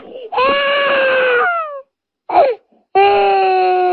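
Crying sound effect of a person weeping: a long harmonic wail whose pitch sags at its end, a short choked sob, then another sustained wail. The sound is loud and stands alone, without talk.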